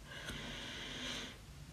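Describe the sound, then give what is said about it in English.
A single deep breath drawn in, a soft, airy hiss of inhalation lasting over a second before easing off, quiet and alone. “We're going to start today's episode with a deep breath. And you already know whenever I start the episode with a deep breath, it means it's a heavy episode. So, deep breath in.”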